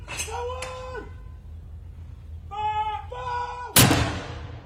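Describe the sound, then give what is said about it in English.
A ceremonial artillery gun salute across the United Kingdom in honour of the late Queen: one sharp, loud boom bursts out near the end, after a stretch of sustained, steady tonal notes. “Gun salutes across the United Kingdom today in honor of Queen Elizabeth II.”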